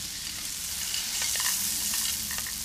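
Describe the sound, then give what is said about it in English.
Arborio rice, 350 grams, is stirred in a hot pan, making a continuous bright sizzle. Faint scraping and stirring noises run through it, with no talk. “And now we are ready for the arborio rice. 350 grams.”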